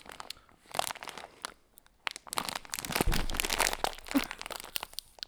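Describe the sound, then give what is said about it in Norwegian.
A plastic bag of chili snacks is torn open, giving many irregular crinkles and crunchy crackles with a louder, denser burst of tearing in the second half. “Det er dumt jeg ikke har funnet opp noen greier til å åpne pakker.”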